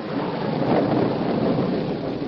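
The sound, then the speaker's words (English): Thunder rumbles through a heavy storm as lightning forks from low clouds over a flooded creek, a steady, dense roar with rain that swells slightly early on and holds loud throughout, without voices. “Boulder Creek was a raging torrent, and lightning forked down from low-hanging clouds with a resounding crash that made the roan horse whinny with fear.”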